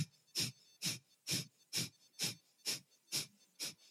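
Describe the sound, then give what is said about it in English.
Eight forceful exhales through the nose during rhythmic breathwork, each one pumped by the belly. They come in an even, quick pulse of about two per second, each a short airy hiss with a soft low thump. “As I'm breathing out in 1 second, I'm pumping my belly. So my belly is like making the movement, and it's my belly that it's giving me the strength to breathe out.”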